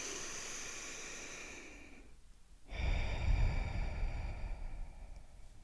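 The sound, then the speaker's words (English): A deep breath in and out, taken as a slow, steady breath with a brief quiet pause in the middle before a fuller, louder exhale. “Let's begin by taking a deep breath in and a deep breath out.”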